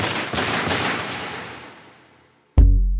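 Gunshots fired at a man at a restaurant door: a few sharp shots in quick succession with a long, fading ringing tail, then after a short silence a sudden heavy low thud.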